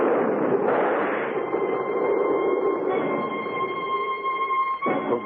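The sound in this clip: A sentry fires gunshots at a running man: two sharp blasts, one near the start and one at the end, cut through a steady, loud rumble.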